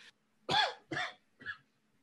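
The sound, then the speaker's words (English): A person with a lingering cough lets out three short, dry coughs in quick succession, each a brief rough burst with short gaps between, fairly quiet and alone. “Oh man, still got this cough hanging around. It's killing me.”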